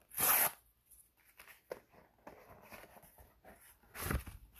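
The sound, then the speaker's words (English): Paper packaging envelope being torn open: a loud, sharp rip at the start and another near the end, with faint rustling and handling noises in between. “So I'm going to do a very quick, quick unripping because it's only an envelope your standard packaging envelope.”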